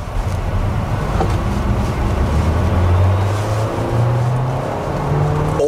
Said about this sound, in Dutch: oké, hoort de verbrandingsmotor ook. Nu schakelt hij. Wel een soort vertraging als je schakelt.